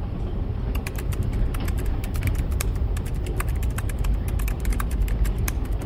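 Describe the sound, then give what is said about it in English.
Someone types rapidly on a laptop keyboard aboard a train. Many light, crisp key clicks come in an irregular rhythm over a steady low rumble. “You're typing. We're typing! When you type on your laptop like that,”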